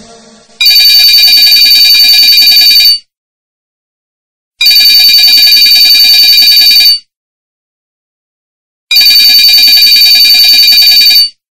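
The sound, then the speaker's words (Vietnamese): A telephone rings urgently in three long, bright electronic bursts, each lasting about two seconds, separated by short silences. The rings are loud and clear, with no voices. “Tiếng chuông điện thoại dồn dập vang lên”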